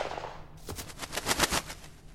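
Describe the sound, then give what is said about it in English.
Gunfire from a handgun in a horror drama, heard as a rapid string of sharp cracks with no voices. “I always use a gun. Right in the forehead.”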